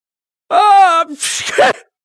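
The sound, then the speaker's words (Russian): A voice imitates a loud sneeze: a drawn-out, rising voiced "ah" breaks into a sharp, hissy burst of breath. It is short, loud and stands alone. “Вместо ответа оглушительно чихнул Корсаков.”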